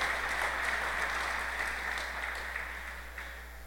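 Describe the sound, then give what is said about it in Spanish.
Applause from an audience for a performer, a dense, steady patter of many hands clapping at moderate loudness that gradually fades toward the end, with a low steady hum underneath. “Un fuerte aplauso para Laura.”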